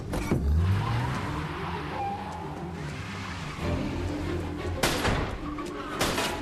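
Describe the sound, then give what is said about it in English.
A car engine revs hard as the car reverses and speeds away, with a steady roar and whining gear noise, joined near the end by two sharp, loud bangs. “In the car, Michael shifts into reverse and speeds toward his fleeing father.”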